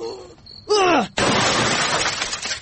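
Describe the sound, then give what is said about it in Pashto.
A television set being smashed: a sudden loud shattering crash that trails into sustained rattling and breaking noise, just after a short, falling vocal cry. “والکه څه ته یې تلویزیون دې مات کړه؟”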